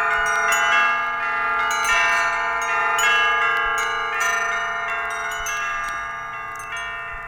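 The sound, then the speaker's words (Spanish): Church bells peal together from a village church, rung in full swing. Many overlapping strikes ring out with sustained metallic tones, the ringing dense and continuous throughout, with no voices. “Tundelatapa en echar a vuelo las campanas de la iglesia”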